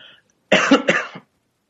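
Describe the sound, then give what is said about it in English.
Throat clearing and coughing from one person: two rough, harsh bursts in quick succession, then silence. “But just a second. Got something in my throat.”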